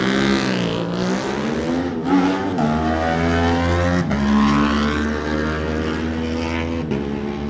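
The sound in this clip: A twin-cylinder MSR racing motorcycle sets off at a race, its engine loud and revving hard, pitch climbing through several gear changes, each broken by a brief drop before rising again.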